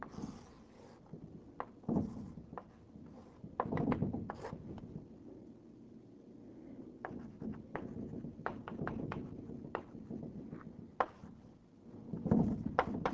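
Tapping and scraping of writing on a board as a formula is written during a lecture on string theory: a long run of irregular dry taps and short scratches, fairly quiet, with no voices.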